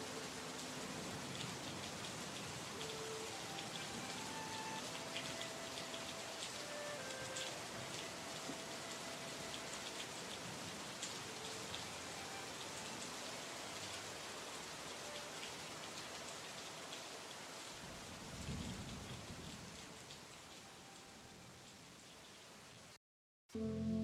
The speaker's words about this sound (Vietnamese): Bên ngoài trời vẫn mưa như trút.